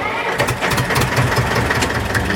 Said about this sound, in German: Klasse! Der Trecker läuft wieder!